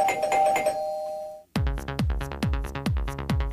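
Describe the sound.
A bell rings in a rapid series of bright metallic strikes, each ringing out and decaying into the next. Music plays before the bell and then breaks off.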